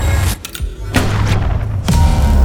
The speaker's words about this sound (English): The coil gun is firing.